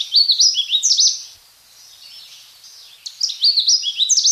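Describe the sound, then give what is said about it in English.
A Canada warbler sings two bursts of rapid, bright, high-pitched chirping notes, one at the start and one at the end, with a quieter pause between them. “That's the sound of one of those animals, a bird you might have had a better chance of seeing a couple of decades ago, the Canada warbler.”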